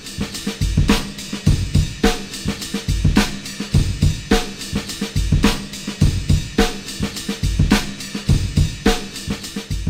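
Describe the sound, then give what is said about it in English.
A slowed-down early hip hop drum loop with boosted bass repeats in a steady groove, its heavy low kicks and crisp snare hits looping many times at a loud, even level with no voices. “If you slow it down, not by a lot, 20, 25% maybe, and boost the bass. And if you do that, it sounds like this.”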